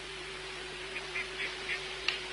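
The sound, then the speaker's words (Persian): Ducks quacking on a pond: a few faint, short calls in quick succession over a steady low hum. “این طرف دست چپ یه برکه آبه پر از مرغابی”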